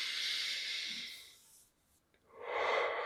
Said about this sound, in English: take a big, like sort of deep breath through your nose